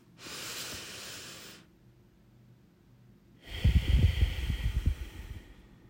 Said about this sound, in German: atme einfach einmal tief ein, halt kurz die Luft an und atme wieder aus